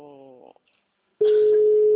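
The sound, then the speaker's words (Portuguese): Ringback tone of a call to a mobile phone: after a brief voice and a short silence, a steady, loud, mid-pitched ringing tone starts and holds unbroken to the end. “Pelo menos o celular dela hoje tá chamando.”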